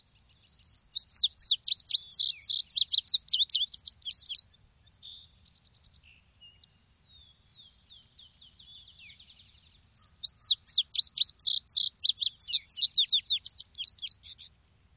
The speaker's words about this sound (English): If you're really lucky, you might hear an indigo bunting, a beautiful songbird with richly colored blue feathers. They sound like this.